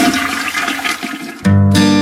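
A toilet flush in a plumbing company advert: a loud rush of swirling water for about a second and a half, then a loud, sustained tone.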